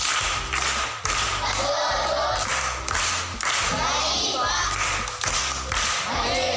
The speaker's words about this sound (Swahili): Makofi kwa anko.